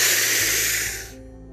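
A deep breath drawn in through the nose, one loud airy hiss lasting about a second before fading out.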